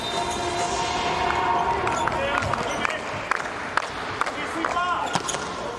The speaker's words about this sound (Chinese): 17号副攻发球